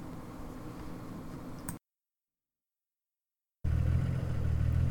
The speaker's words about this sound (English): I've been driving for, about 20 minutes.